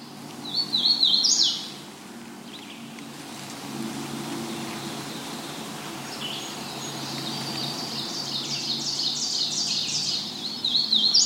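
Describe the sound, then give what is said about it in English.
Marsh wren song: a short, bright, rapid trill at the start, then a longer run of buzzy, stuttering trills near the end, over a steady background hiss. “Marsh wren.”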